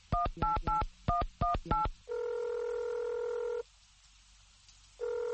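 Telephone keypad dialing tones: a rapid run of short beeps in two quick groups, then a long steady ringing tone, a silent pause, and the ringing tone starting again.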